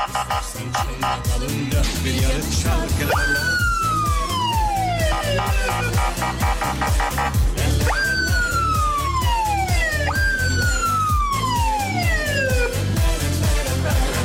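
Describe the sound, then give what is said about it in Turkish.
A wailing emergency siren sounds in three long falling sweeps, each dropping steadily in pitch, loud over a steady rhythmic background that runs throughout. “bir siren alalım demiş. Alın bakayım.”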